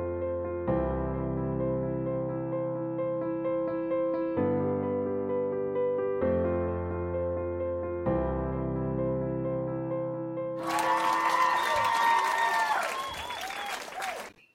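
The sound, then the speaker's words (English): Sustained synthesized chords shift a few times before applause and cheering break out near the end, welcoming viewers at the start of a live-streamed psychic TV show; the clapping is loud and bright, with high whoops rising over it. “I like that applause we got at the start.”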